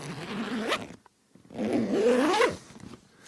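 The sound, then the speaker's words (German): Two zipper pulls on an Italian leather bag: a short rasping zip, a brief pause, then a second, longer zip, both fairly soft and heard alone. “Das ist eine Ledertasche, gerade aus Italien angekommen, von The Bridge. Sehr edle, schöne Marke italienischen Leders, die ich bei Vinted gekauft habe.”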